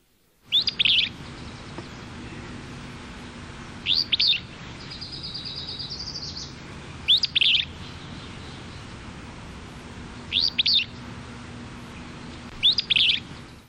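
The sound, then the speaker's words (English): A willow flycatcher sings in the Verde Valley in Arizona, giving five short, sharp, buzzy phrases spaced a few seconds apart over a faint steady background. A thin sustained tone appears between the second and third phrases. “This willow flycatcher song was recorded in the Verde Valley in Arizona.”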